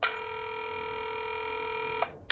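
A telephone rings with a steady electronic tone. One long ring lasts about two seconds, and a second ring begins after a short gap. No voices are heard.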